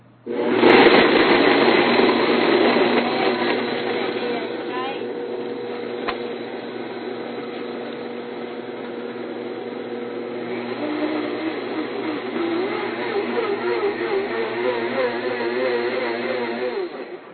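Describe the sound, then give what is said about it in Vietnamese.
A blender crushes ice for a smoothie: one loud, steady grinding whir that runs for the whole clip, its motor tone wavering slightly partway through. “Khi mà mình xay sinh tố nó chỉ cần từ 27 đến 30 second thôi các bạn.”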